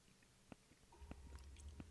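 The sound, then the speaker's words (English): Chewing: faint, crisp crunches and wet clicks come at an uneven pace over a low, steady hum. “A lot of chewing, I apologize.”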